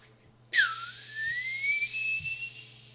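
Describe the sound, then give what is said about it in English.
A high whistled tone imitates the ringing in one ear after sudden deafness. It starts abruptly, dips in pitch, then slowly climbs and holds steady for a few seconds over a faint low hum. “Have you guys ever been sitting somewhere, and all of a sudden, out of nowhere, one ear goes completely deaf, and it's followed by something that sounds like this.”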